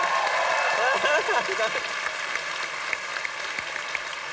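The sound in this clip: Audience applause and cheering as a comedian is welcomed onto a stage, with whooping voices early on; the clapping is fullest in the first two seconds, then thins to lighter, scattered claps.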